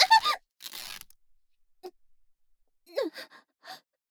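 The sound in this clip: The clothing of a princess and knight commander being torn, one short, noisy rip set between a sharp gasp at the start and soft breathy vocal sounds afterward.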